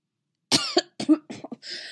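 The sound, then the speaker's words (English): A man coughing after hot chocolate went down the wrong pipe: a rapid burst of several short, sputtering coughs that ends in a breathy exhale. “Ezra sputtered a little as some of the hot chocolate went down the wrong pipe. Putting his mug down, he coughed and wiped his mouth.”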